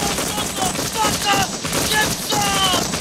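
Rapid gunfire aimed at a tree during a firefight, many shots packed into a loud, continuous burst that barely pauses.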